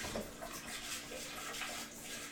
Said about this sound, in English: busting out the new BlendTech jar. Brand new. Just gave it a little rinse for whatever factory gross chemicals are in it.